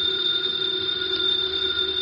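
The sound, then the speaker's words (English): A house telephone rings with a steady electronic bell tone that holds without pause across the whole clip. No voices are heard. “The phone is ringing. Let it ring.”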